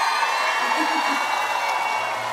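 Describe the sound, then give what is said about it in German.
Audience applause and cheering at a stage show in Schwabing: a loud, dense, continuous wash of clapping and crowd noise, with a voice faintly beneath it. “Nochmal einen riesengroßen Applaus. Komm schon, Schwabing!”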